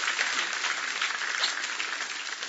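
A church audience claps to acclaim Jesus during a sermon. The applause is soft and even, with dense clapping at a steady level and no voices over it.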